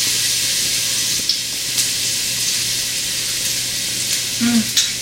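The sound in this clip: Minced garlic fries in a pan with a steady, loud sizzling hiss throughout, broken by a few brief clicks and knocks, mostly near the end.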